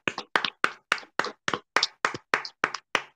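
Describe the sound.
Eleven sharp hand claps at a steady, even pace, about three per second, each one crisp and bright, alone with no voices.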